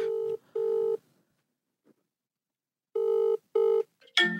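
A telephone rings during a call: two pairs of short, steady, buzzy tones separated by a long silent gap, with a brief burst of sound at the very end.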